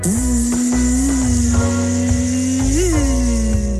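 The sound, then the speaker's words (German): A mosquito buzzes right at the ear of someone lying in bed: a loud, steady, droning whine that wavers slightly, swoops briefly upward near the end, and sits over a low hum. “Eine Mücke, eine fiese kleine Mücke. Das kommt immer näher und näher. Und irgendwann haben sie es direkt am Ohr.”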